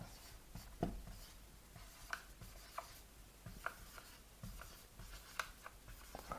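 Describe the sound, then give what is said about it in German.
A pen writes a place name down, making faint, scratchy strokes with small, irregular taps and scrapes. “Schreibe ich mal hin.”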